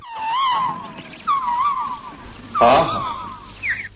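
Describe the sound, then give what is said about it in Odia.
Asian koel singing near a mango tree: three long, warbling, whistled phrases with a clear tone, ending in a short, higher note. “ସମ୍ମୁଖରେ ଆମ୍ବ ଗଛ ଦେଖି ସେ ଆତୁର ହୋଇ ଆରମ୍ଭ କରିଦେଲା କୁହତାନ”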